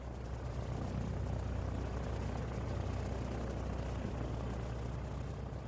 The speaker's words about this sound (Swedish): Klockan 2:18 på eftermiddagen den 13 oktober 1972 lyfter planet från Mendoza.